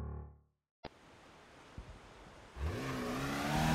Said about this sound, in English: The Porsche tore up the Pacific Coast Highway. It headed north, away from Los Angeles.